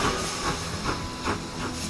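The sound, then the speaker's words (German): A steam train departing, with hissing steam and rhythmic chuffs pulsing about every half second, steady and fairly faint throughout. “Eine Durchsage für Gleis 1. Es fährt ab der Kinderexpress Richtung Alles, was uns Spaß macht Podcast.”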